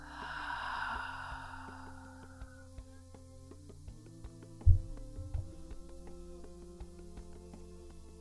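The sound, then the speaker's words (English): A slow exhale of breath during a guided breathing exercise, a soft, breathy hiss that fades out over about two seconds, faint over steady quiet tones. “One more inhale. And exhale.”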